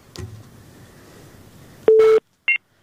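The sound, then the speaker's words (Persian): After a call is lost on a phone-in radio show, a quiet stretch gives way to a loud, steady electronic telephone tone lasting a fraction of a second, then one short, higher beep. “مشکل فنی بود فکر کنم که تماس شما رو از دست دادیم”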